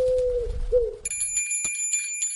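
A small bell tied to a pigeon's leg rings out about a second in, its bright, high, sustained tone lingering to the end after a lower, wavering tone.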